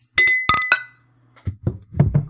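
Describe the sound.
Glasses clinking in a toast over beers: three bright ringing clinks in quick succession, then a few duller, low knocks, with no talk.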